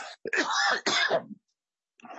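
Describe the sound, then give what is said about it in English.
A person coughs and clears their throat in two rough, voiced bursts, then falls silent briefly before another short sound starts. “excuse me for a second, I've got a cough.”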